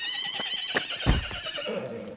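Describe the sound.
A horse whinnies in a long, wavering, high-pitched neigh, with a few hoof clip-clops and thuds mixed in beneath it.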